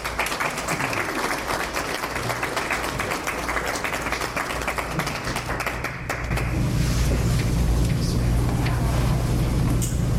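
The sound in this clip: Audience applause welcomes a reader to the stage, with many hands clapping in a dense, continuous patter that carries on throughout and thickens with a fuller, lower wash in the second half.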